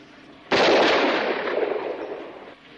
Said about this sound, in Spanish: Empuñe el arma. Ande, dispare.